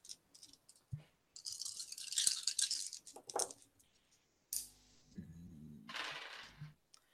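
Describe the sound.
Dice rattle and clatter as players roll for awareness checks in a tabletop game, coming in several short, faint bursts separated by brief silences.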